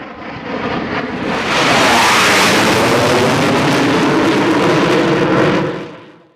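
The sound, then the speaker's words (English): A championship aerobatic aircraft performing: a broad engine roar swells in, holds loud and rough with a sweeping shift in tone, then fades away at the end, with no voices. “He just clinched the SA Nationals 2022 Aerobatic Championship. And we thought we'd just give you a little taste of what that could sound like.”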